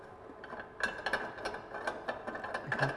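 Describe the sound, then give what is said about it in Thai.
Faint plastic clicks and ratcheting ticks as a tube is twisted off and a lock is released to remove an appliance's tank for washing. A quick, irregular series of small snaps and taps. “เมื่อใช้งานเสร็จแล้วนะครับเราก็จะถอดตัวถังออกเพื่อที่จะเอาไปล้างทำความสะอาดนะครับเราต้องหมุนหลอดออกก่อนนะครับ”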